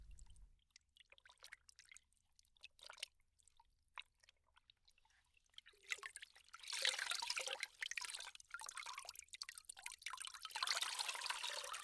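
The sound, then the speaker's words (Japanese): Water splashing and trickling as a towel is soaked in hot water. It is quiet at first, with only faint ticks, then turns into steady sloshing and dribbling through the second half. “タオルをお湯に入れて温めますからね。”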